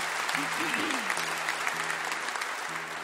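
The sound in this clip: An audience applauds to welcome a bass player before she sings a song she wrote, with steady, dense clapping throughout and a voice briefly rising above it early on.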